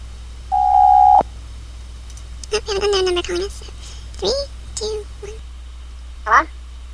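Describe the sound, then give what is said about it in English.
A single steady electronic telephone tone sounds for under a second, announcing an incoming call from an unknown number. Brief chirpy voices follow after a short pause. “We have an unknown number calling us.”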